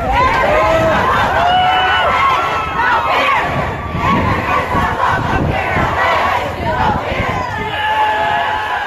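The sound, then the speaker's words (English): Students rally outside U.S. Senator John Cornyn's Austin office, filling the air with loud, continuous crowd shouting and chanting, many overlapping voices raised in unison without a break. “That is the sound of students rallying outside the Austin office of U.S. Senator John Cornyn this week.”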